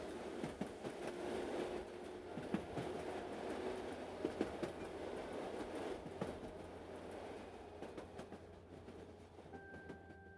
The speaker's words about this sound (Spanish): Pasó el tren, me volví tierra y una vez más quedó claro que el diablo no se apiada de nadie.